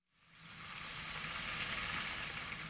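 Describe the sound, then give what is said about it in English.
Ribs sizzle as they fry in the tiny kitchen of a four-table restaurant in Semarang, Java, Indonesia. A dense, steady hiss rises within the first half second and then holds loud and even, with no talk. “cooks up a plate of ribs in the tiny kitchen of his four-table restaurant”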